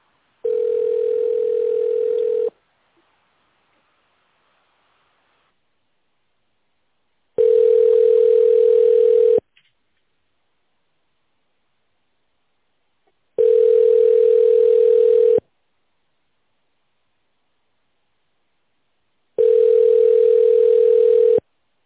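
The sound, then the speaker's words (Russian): Telephone tones sound while a call is transferred: four long, steady mid-pitched beeps, each about two seconds long, separated by even gaps of silence roughly five seconds long. “Я сейчас вас соединю, ожидайте.”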